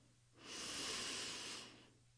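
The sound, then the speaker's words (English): A deep breath in during a guided meditation: one slow, quiet, airy inhale that swells gently, holds and then fades away alone. “take a deep breath in”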